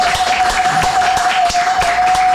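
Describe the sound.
Studio audience applause greeting a guest on a talk show, steady clapping with distinct individual claps standing out, alongside a thin sustained whistle-like tone.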